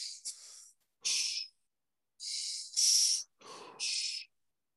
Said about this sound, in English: Your last gear, which is your fifth gear, you will be inhaling nose and mouth.